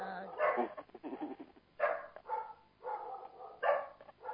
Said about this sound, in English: I have dogs. There's some nature. They usually stay pretty quiet.